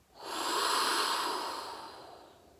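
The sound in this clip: A single long breath through the nose during a guided deep-breathing exercise: a soft, airy hiss that swells quickly, holds, then slowly fades, quiet and alone.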